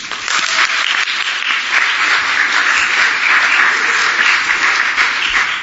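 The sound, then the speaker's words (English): Audience applause welcoming a speaker to the stage, with many hands clapping in a continuous, even patter that stays loud and steady for several seconds. “I'm going to invite Janelle Bresnik to come on up. She led our high school team, and so why don't you give her a warm welcome.”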